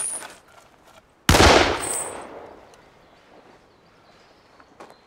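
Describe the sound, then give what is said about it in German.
A single loud gunshot cracks out of near-quiet, its sharp onset trailing off into a long, fading tail, followed by a few faint clicks and taps. “Sie hätten wirklich nicht schießen müssen.”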